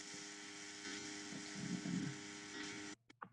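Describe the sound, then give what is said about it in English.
An electric fan runs as a steady whirring hum with a faint tonal drone, holding an even level before cutting off abruptly near the end. “I apologize for the fan that you hear running in the background. I did attempt to resolve that.”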